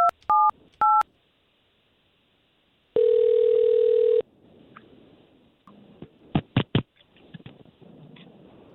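A telephone number being dialled: three short touch-tone beeps, a pause, then a steady tone of about a second, followed by a few sharp clicks and faint rustling.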